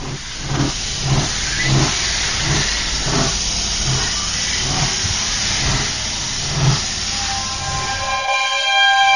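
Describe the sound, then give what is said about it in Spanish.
A train arriving at a station platform gives a loud, steady rumble and hiss with regular rhythmic pulses throughout, and a few tonal squeals near the end. “Tren procedente de misterios y leyendas efectuará su entrada en la vía 4, final de trayecto.”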